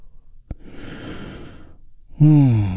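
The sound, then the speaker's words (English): A deep breath taken together in a group breathing exercise: a quiet click, then a long airy inhale. A brief pause follows, then a loud, voiced sighing exhale that slowly fades. “we begin our moment of Zen with a big, deep healing breath that we do all together. Here we go. And release.”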